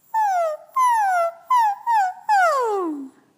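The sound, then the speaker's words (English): A voice imitates a puppy whimper in five clear, high whining notes, each sliding downward in pitch. The last note is the longest and falls furthest, and short gaps separate the notes. “So your sound should be, it's a puppy sound.”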